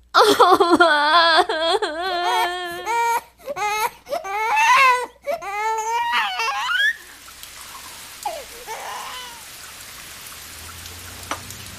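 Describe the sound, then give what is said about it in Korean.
A daughter cries and sobs in loud, broken bursts of high, wavering wails for about seven seconds. The crying then gives way to a soft, steady hiss with a few faint whimpers. “왜 울어?”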